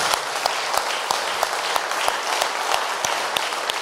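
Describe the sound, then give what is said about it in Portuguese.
Applause at a church service: a dense, steady patter of many hands clapping, fairly loud and unbroken from start to finish. “Palmas para Jesus.”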